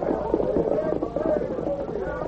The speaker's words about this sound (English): the miners, carrying their mining tools, rode past the grove as they followed the Lone Ranger's trail.